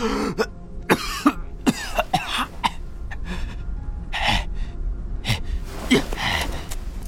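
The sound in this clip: Violent coughing from an old man, a series of harsh, raspy bursts and throat-clearing hacks with gasping breaths between them, loud and irregular, with no talk.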